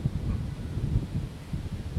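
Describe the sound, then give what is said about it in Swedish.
Strong wind buffets the microphone as a low, rumbling roar with gusty swells rising and falling, with no voices. “jävlar vad det blåser. Det blåser ordentligt.”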